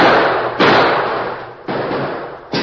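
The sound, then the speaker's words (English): Rifle shots ring out in a frontier standoff at a cabin window: a few loud, sharp reports at uneven intervals, each trailing off slowly, with no voices. “But, Jim, what does it mean? Who'd be shooting at us?”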